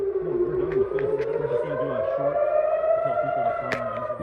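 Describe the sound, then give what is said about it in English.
Air-raid warning sirens sound in a Jerusalem street as a continuous, loud, slowly wavering wail that runs for the whole clip, with a voice speaking underneath. “I hope you can hear us over the loud sirens behind us.”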